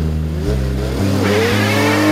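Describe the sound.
Car engine revving as the vehicle drives off, a mid-pitched roar building in intensity over steady low droning tones, with no voices present.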